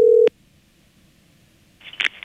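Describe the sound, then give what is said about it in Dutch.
Telephone dialling tones as a number is dialled: a loud, steady electronic beep opens, then a near-silent pause, then a rougher burst of tone returns near the end. “We gaan nu bellen met... De pa van Stef Ekel dus. Nou, daar gaan we.”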